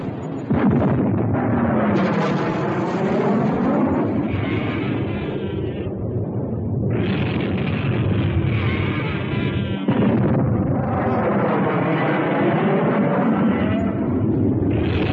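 Artillery fire and explosions boom during a battle against a giant monster, forming a dense, loud, continuous rumbling din throughout with no clearly separate blasts.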